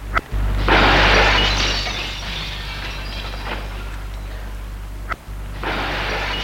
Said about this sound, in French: Vite, il prend une pierre pour taper sur la vitre et la briser.